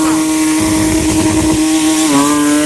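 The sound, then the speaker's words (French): A Porsche GT3 rally car's engine roars loud and buzzy at a race start, holding a steady rasping drone that dips slightly in pitch near the end. “Sur la Porsche GT3, donc départ avec un très beau départ.”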